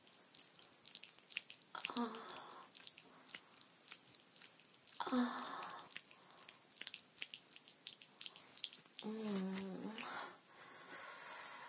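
Wet squishing sounds come from a sex toy being slid up and down, a faint series of soft, irregular squelches and slick clicks with a few louder bursts along the way.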